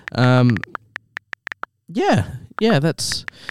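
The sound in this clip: Mobile phone taps as someone texts: a quick run of short, sharp clicks, with a few more scattered later, sounding between bursts of people talking.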